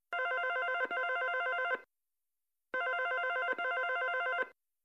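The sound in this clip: Telephone ringing on a call to someone's home: two long rings separated by a silent pause. Each ring is a pair of back-to-back bright, buzzing trill bursts.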